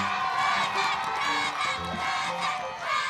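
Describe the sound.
A studio audience cheers for a contestant on a TV show, with many voices shouting and whooping together in a loud, continuous, excited roar that swells and dips slightly.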